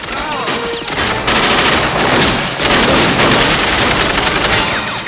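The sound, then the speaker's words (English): A film soundtrack carries sustained automatic gunfire as soldiers empty their weapons into a man: a dense, loud, continuous barrage of rapid shots with no pauses. “Richter, grinning with delight, empties his gun into Quaid, who sinks to his knees.”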